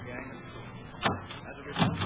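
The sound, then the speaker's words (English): A door is handled as someone tries to open it: a dull clunk, then a second heavier knock-and-rattle, over a steady background hiss. “Quiet. Open the door easy. I'm going to.”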